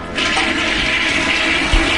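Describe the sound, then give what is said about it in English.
Toilet flush marking a New Year countdown into 1980: a loud, steady rush of water lasting the whole two seconds, with a brief louder surge near the end. “And with that, we symbolically flush the old decade away”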